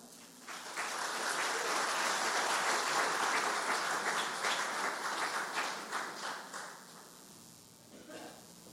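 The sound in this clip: An audience applauds to welcome a speaker to the podium at a morning gathering. Dense, sustained clapping swells quickly, holds steady, then thins and fades near the end.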